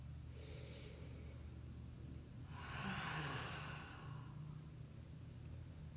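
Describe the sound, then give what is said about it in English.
A single deep breath, soft and airy, swells briefly and fades over a faint low background hum, with no talking. “Deep breath.”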